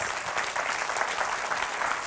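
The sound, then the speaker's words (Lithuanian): A TV studio audience applauds to welcome a guest, a dense, steady roar of many clapping hands that stays loud and even throughout with no talk over it. “Pasitikime plojimais.”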